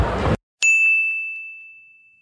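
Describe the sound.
A single bright bell ding sounds as a game-show-style cue during football betting commentary. The clear ringing tone decays slowly over about two seconds, following a short burst of noise and a brief silence.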